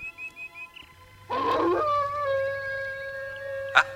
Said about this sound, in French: C'est le loup.